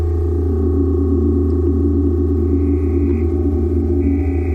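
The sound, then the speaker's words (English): Steady electronic tones from several synthesizer oscillators blended on a mixing desk, layered sustained hums joined partway through by a higher whistling tone that drops out briefly and returns near the end. “And these different sounds coming in, are these different oscillators? Different oscillators, and I have a mixing desk on the bottom so I can fade in the different sounds.”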